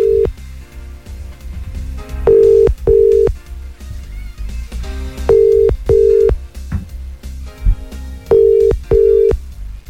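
Ringing tones of an outgoing telephone call: three pairs of short, steady, mid-pitched beeps repeat about every three seconds over continuous background music.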